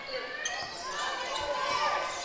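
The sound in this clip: A basketball is dribbled forward on the court during a basketball game, a few dull rhythmic bounces heard under a commentator's voice.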